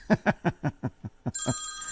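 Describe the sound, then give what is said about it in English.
A telephone ringing: a quick run of evenly spaced low buzzing pulses gives way to a steady, bright, sustained ringing tone. “Oh, phone call. I can't take a phone call right now.”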